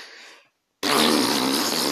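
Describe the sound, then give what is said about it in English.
A voice imitates a fart: a brief quieter breathy sound, a short silent gap, then a loud, sustained raspy blast that carries on to the end. “someone's just gonna have a bigger fart and just go”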